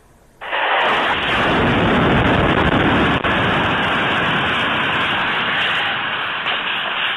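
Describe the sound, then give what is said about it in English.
A missile strike hits a village grocery store in Kharkiv region: an abrupt, loud blast bursts in near the start and becomes a harsh, sustained roaring rumble that runs to the end with little change, with no voices. “Authorities in Kharkiv say that footage shows the moment a village grocery store was hit.”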